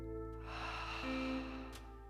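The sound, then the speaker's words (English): Slow, deliberate breathing during a guided meditation for anxiety: a soft, airy rush of breath lasting over a second, over a steady sustained background tone. “One more time. Inhale through the nose. And exhale through the mouth.”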